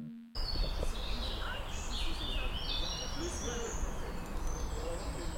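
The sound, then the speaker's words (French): Birds sing in high, scattered chirps and calls over a steady low traffic rumble from cars, with faint background chatter. The sound begins after a short quiet moment. “c'est le bruit des oiseaux avec un peu les voitures derrière et des gens qui discutent”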